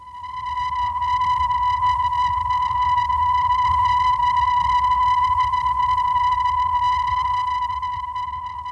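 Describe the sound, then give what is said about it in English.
The radio signal of the Pioneer 5 space probe, broadcast from space, is one steady, unbroken high tone with buzzy overtones above a low rumbling hiss. It swells in at the start and fades slightly at the end. “And here now is Pioneer 5 broadcasting its music from space.”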